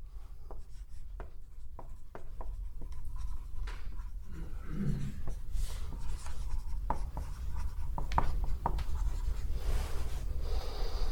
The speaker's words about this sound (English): I normally write in cursive, but when I'm on a dry erase board, I forget halfway through.